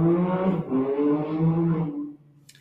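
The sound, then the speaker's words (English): Bikes roar on a street in West Philly, a loud engine drone whose pitch shifts up and down before it cuts off abruptly. “Pardon the sounds, you know, we live in West Philly. You know, West Philly does a lot of things. And one thing I could tell y'all will ride y'all bikes.”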